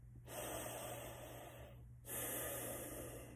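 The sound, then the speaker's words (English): Slow, deep breathing during a meditation session: two long, hissy breaths, one after the other, soft and even, with no voices. “Focus on the breath.”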